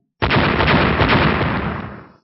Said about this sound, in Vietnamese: Những tiếng nổ liên tiếp truyền ra